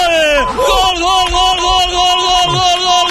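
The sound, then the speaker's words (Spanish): Villarreal away supporters in the south curve at El Sardinero celebrate a goal with loud, continuous cheering and yelling, and a raised voice carries over the crowd throughout. “lo celebran los aficionados del Villarreal desplazados, hay alguno que otro y en el Sardinero, Unos cuantos en la curva sur”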